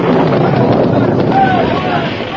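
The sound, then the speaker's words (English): A blast bringing down a big rock overhang at the top of a gorge, heard as a loud, sustained, deep rumbling roar that fades slightly at the end. “Golly, what was that? The big overhang at the top of the gorge. Someone has blasted it. It'll fill the canyon.”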